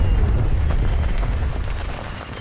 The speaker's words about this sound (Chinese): 哎呀，我这大炮连宇宙飞船都能轰下来！